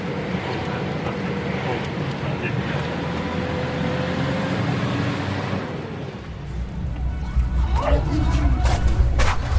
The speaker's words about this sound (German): Jetzt fahren wir gerade durch eine Schlucht.